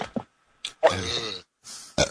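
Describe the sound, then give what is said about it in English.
A loud, drawn-out burp with a rough, throaty tone lasting about half a second, surrounded by a few short breathy bursts and pauses. “Burp.”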